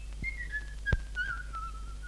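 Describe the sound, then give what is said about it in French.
A person whistles a tune, softly and alone. The high, wavering melody glides between held notes, with a brief soft thump partway through. “De quoi t'avises-tu de siffler?”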